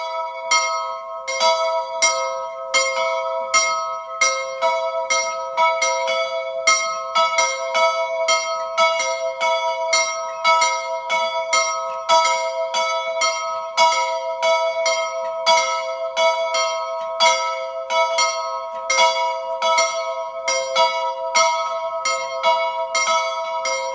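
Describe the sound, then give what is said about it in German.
A church bell of the 17th-century branch church of St. George in Obermirming, Tyrol, rings at noon, striking steadily in an even rhythm with many strokes and a sustained hum carrying between them. “Es ist 12 Uhr. Sie hören die Glocke der Filialkirche zum Heiligen Georg in Obermirming in Tirol.”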